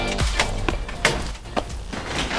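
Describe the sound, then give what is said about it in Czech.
Footsteps cross a creaking parquet floor as a small group walks through a functionalist villa, giving several sharp woody creaks and taps at uneven intervals. “Po vrzajících parketách procházíme architektonickým unikátem”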